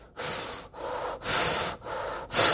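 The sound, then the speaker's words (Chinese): Human breathing, deliberately demonstrated: five airy, noisy breath sounds in a steady rhythm separated by brief pauses, loud and alone with no talking. “唔知道大家听唔听到啦，呢啲係呼吸声。”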